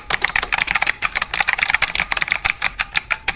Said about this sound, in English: I just typed... That's my password. It's almost done. All right, it's long.